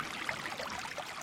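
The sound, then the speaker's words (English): Water flowing through a desert canyon, a soft, steady rush with light gurgling bubbles running through the short stretch without pause. “That's the sound of water flowing through a desert canyon.”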